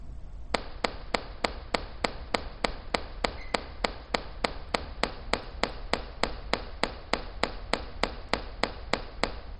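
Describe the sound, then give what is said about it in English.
Sharp clicks played through two speakers in a demonstration of reversing which side leads, sounding as a long, evenly spaced train of many crisp ticks over a low background rumble. “When you hear, or after a while, when you hear the two clicks, that's when we're reversing the order, which one is leading, which side is leading there, and then after a while it merges.”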